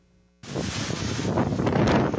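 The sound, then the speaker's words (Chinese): Strong wind of Category 4 Hurricane Ida tossing trees about: a loud, rushing roar of buffeting gusts that bursts in abruptly after a moment of near quiet. “狂风呼呼作响，把树木吹得东倒西歪。艾达飓风侵袭古巴后，继续挟着四级飓风的威力朝美国东南部逼近。”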